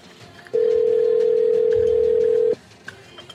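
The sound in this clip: A telephone rings with one steady electronic tone lasting about two seconds, loud and even, set against a faint background.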